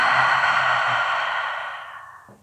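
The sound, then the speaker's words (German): A deep breath exhaled through the mouth during a guided breathing and relaxation exercise: one long, airy whoosh that holds steady, then gradually fades away. “Atme jetzt tief und vollständig in deinen Körper hinein und durch den Mund”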